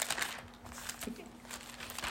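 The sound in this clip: A Bible page being folded and flipped over gives a run of soft, papery crinkles and crackles, uneven in rhythm and fairly quiet, over a faint low steady hum.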